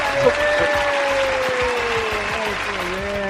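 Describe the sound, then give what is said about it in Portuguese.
Applause for a show guest, steady dense clapping with a sustained whistle-like tone gliding slowly lower above it. “Uma salva de palmas pra ele, que merece!”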